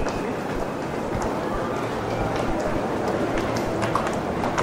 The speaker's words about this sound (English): And there's a train pulling in on our track, or actually, there's a train leaving on our track.